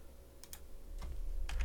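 A computer mouse clicks quietly while someone searches on a computer. There are a few short, crisp clicks, some in quick pairs, over a faint low hum, with no talking.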